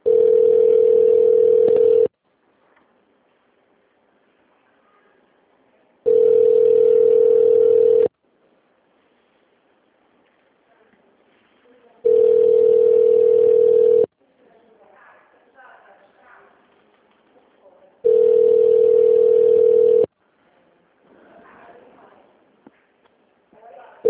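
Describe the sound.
Telephone ringback tone as a call connects to an office extension: four long, steady buzzing rings of about two seconds each, separated by pauses filled with faint background noise.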